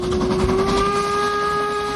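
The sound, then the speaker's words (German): A narrow-gauge steam train on a Harz mountain railway sounds its whistle as it passes, giving a loud, steady, high tone that holds for the whole stretch over a soft hiss of steam. “Ihr wandert und die Harzer Schmalspurbahn fährt an euch vorbei.”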